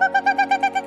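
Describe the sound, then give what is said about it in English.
Woman's voice imitating a strange bird call: a quick, steady series of short, hooting, tonal notes repeated in an even rhythm, clear and alone. “The lady was making the strange bird call.”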